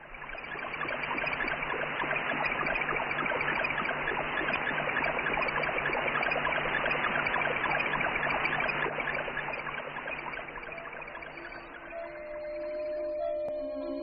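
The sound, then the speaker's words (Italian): The radio signal from the Explorer 15 satellite plays as a steady, crackling hiss that bubbles and trickles like a running brook. The texture stays even throughout, and a faint steady tone creeps in near the end. “Provate a chiudere gli occhi e ad ascoltare l'Explorer 15. Non avete anche voi la sensazione di essere in riva a un ruscello?”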